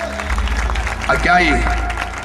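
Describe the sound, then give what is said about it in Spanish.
Church audience applauding the Lord during a Spanish-language sermon about preachers, a dense layer of clapping with a voice speaking loudly over it. “Den un aplauso al Señor por esos predicadores.”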